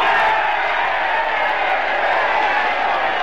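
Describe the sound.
A crowd reacts to a speech by congressional candidate Antoni Kaminsky with a loud, unbroken roar of cheering and shouting that holds steady throughout.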